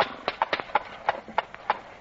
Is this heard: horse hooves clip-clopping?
yes

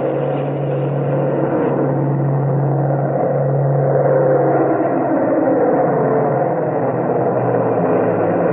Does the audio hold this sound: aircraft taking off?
yes

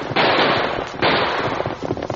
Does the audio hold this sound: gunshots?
yes

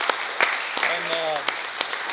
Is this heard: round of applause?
yes

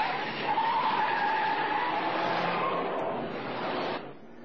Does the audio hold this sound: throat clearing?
no

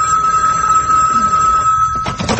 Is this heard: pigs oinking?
no

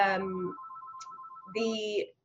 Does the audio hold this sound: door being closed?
no

